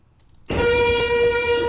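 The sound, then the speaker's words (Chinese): A heavy freight train of 105 wagons, about 1400 m long, sounds a horn as it slowly pulls out of a station in Tangshan, Hebei; the loud, steady tone starts abruptly after a quiet moment and holds. “由105辆挂车组成、总长达1400米的京津冀区域内首趟万吨级货运列车，缓缓地驶出了位于河北唐山的丰润西火车站，开往曹妃甸”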